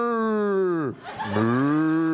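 A cow mooing: one drawn-out, loud call with a rich, steady tone and a brief break midway, heard alone.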